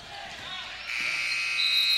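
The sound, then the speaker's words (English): A basketball game's buzzer marks the end of the first half: a steady high electronic tone starts about a second in and holds to the end. A higher tone joins it, with talk underneath. “There's the buzzer, and we've reached halftime with the Hatchets leading the Lakers”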